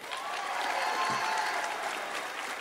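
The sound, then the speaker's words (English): Banquet audience applause, a steady, even patter of many hands clapping that holds at a moderate level without a break from start to finish. “Just give him another hand.”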